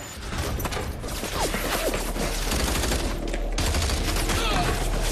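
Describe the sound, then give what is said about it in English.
Dense gunfire in a video game as a player shoots from cover at a wave of advancing enemies. Loud, continuous overlapping shots and bursts fill the whole stretch with no pause. “He moves to take cover and shoots at a wave of advancing enemy.”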